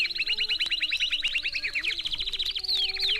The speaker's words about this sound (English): This is the sound of a warbler flock